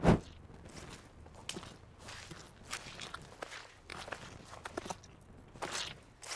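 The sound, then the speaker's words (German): Footsteps descend a slippery stairway: a series of soft, faint, irregular steps, each a short scuff or tap, with quiet gaps between them. “Sie stiegen die Treppe hinab.”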